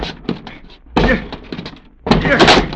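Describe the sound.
Police officers breaking in a door to arrest a bank robbery suspect: two heavy thudding crashes land a second apart, mixed with excited voices.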